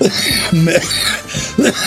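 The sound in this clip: A few harsh coughs and throat-clearing bursts come from a non-smoker whose throat is clogged with crackers. They sound loud and raspy, with short voiced rasps between them.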